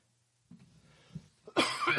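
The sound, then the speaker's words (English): A person coughs after a near-silent stretch: faint low rustling and a small throat sound lead into one loud, harsh burst of coughing at the end. “there goes my cough again.”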